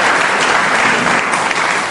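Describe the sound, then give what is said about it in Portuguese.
Dense, steady applause from a church audience, with many hands clapping at once in a loud, continuous wash that holds for the whole stretch. “Dá uma salva de palmas a Jesus aí, meus irmãos e minhas irmãs.”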